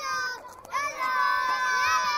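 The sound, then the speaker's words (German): Children in a makeshift refugee camp play among empty plastic bottles and torn tarps. Their high-pitched voices call out and shout over one another, continuous and moderately faint, with a crowd-like murmur beneath. “Kinder spielen im Dreck zwischen leeren Plastikflaschen und Resten von abgerissenen Planen. Sie rufen freudig Hallo, wenn sich mal ein fremder Besucher hierher in den Dschungel verirrt”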